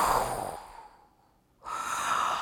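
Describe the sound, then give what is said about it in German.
A voice imitates a dragon snorting and breathing deeply: one long exhaled breath fades away, a short quiet pause follows, then a second strong breath swells up and holds to the end. “Der Drache klemmt seine Augen zusammen, schnauft tief durch”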